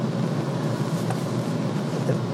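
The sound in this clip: A car drives along with a constant low rumble of engine and road noise, steady and unbroken, with no voices.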